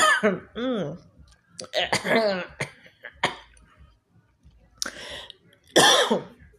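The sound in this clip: Harsh coughing and throat clearing from a person whose throat feels hot after eating sunflower seeds. There are several irregular, voiced bursts separated by short quiet gaps.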